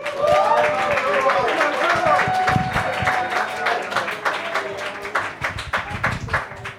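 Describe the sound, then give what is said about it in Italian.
A comedy club audience applauds a performer being introduced, with brisk, dense clapping that gradually thins and becomes more scattered toward the end. “Signore e signori, fate un grande applauso per Giorgio Brambilla.”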